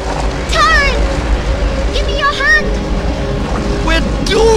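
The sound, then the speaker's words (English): In a dramatised story, a whirlpool's churning water spins and drags people under. A steady low rushing roar runs throughout, while voices cry out in short bursts above it. “and the second rises up, then begins to spin round, faster and faster. Oh, Master! Master! Gurgi! Taran slips into the whirlpool.”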